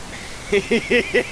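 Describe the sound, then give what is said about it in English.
A censoring noise covers spoken words with four short, evenly spaced warbling electronic bursts over a faint steady whine. “I'm gonna go ahead and censor this so the audience doesn't hear.”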